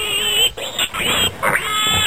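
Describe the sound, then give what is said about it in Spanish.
Pig grunts and oinks in a children's gingerbread-man tale, a few short snorting bursts separated by brief gaps, over a bright, steady background tone. “se encontró con un cerdo que cortaba paja.”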